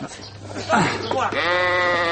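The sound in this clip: A sheep bleats while its legs are bound with rope before slaughter. Some brief scuffling leads into one long, loud, wavering bleat that holds steady to the end.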